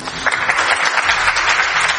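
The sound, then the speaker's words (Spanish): Applause for the Spanish head of government at the close of a long year-end review speech, a steady dense patter of clapping that holds at an even level for about two seconds. “Bueno, aplausos al presidente del Gobierno.”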